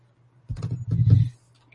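Typing on a computer keyboard: a quick, dense run of clicks lasting under a second, over a steady low hum.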